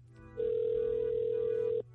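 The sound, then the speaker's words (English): A telephone tone sounds on an outgoing call: one steady, fairly quiet electronic tone holding for about a second and a half before cutting off, with a faint hum underneath. “I want to call my daughter because my wife just told me they're on their way to school right now, so I'm dialing it up.”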